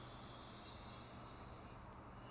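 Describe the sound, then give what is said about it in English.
A deep inhale through the nose during a right-nostril breathing exercise: a steady, airy hiss that holds evenly, its bright top edge dropping away near the end. “Exhale. Inhale for protection.”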